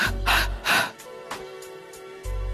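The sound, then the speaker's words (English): Deep, forceful breathing during a guided breathing exercise: a few loud, breathy exhales burst out in quick succession, then softer breaths follow, with a low hum at the start and end. “Take a deep breath in and exhale three times. And another deep breath in with me. And three times.”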